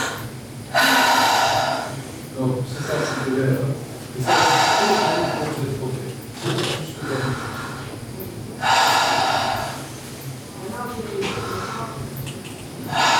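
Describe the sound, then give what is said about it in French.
A person takes deep breaths in and out through the mouth while a doctor listens to the lungs during a medical check. Several slow cycles of loud, breathy, hissing inhalations alternate with softer exhalations in an even rhythm. “Alors, respirez par la bouche.”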